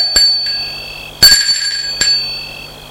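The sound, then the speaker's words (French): A bell at a gate rings in a few bright metallic strikes, one clearly louder than the others. Each strike leaves a shimmering tail, with no voices. “Un des hommes sonne au portail.”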